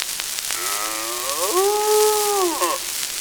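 A cow on a farm lets out a single drawn-out moo that rises in pitch, holds steady, then drops away at the end, over faint background hiss.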